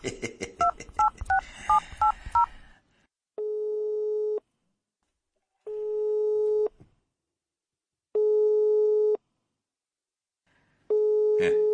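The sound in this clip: A telephone call is dialled and goes unanswered: a quick run of keypad tones is followed by four long, steady busy tones with equal silent gaps between them.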